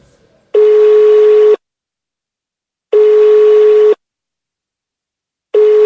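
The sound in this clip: A telephone line tone while calling someone who does not pick up: steady beeps at one pitch, each about a second long, separated by silent gaps, with the third cut short at the end.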